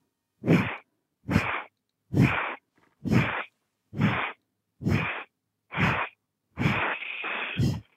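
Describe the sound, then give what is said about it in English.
Forceful breathing-exercise exhales, like blowing out a candle, come as seven short, sharp, breathy puffs at an even rhythm, followed by one longer drawn-out blow. The puffs are loud and airy with silence between them. “There's 10 breaths. Yes. You're blowing out a candle. Make sure your belly narrows with each breath.”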